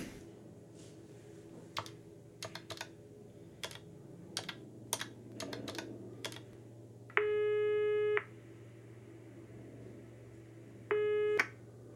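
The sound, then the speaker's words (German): A telephone call being dialled: many sharp button clicks over about six seconds, then two steady electronic line tones. The first tone lasts about a second and the second is shorter. No voices. “Ich muss wohl doch die Benziger anrufen.”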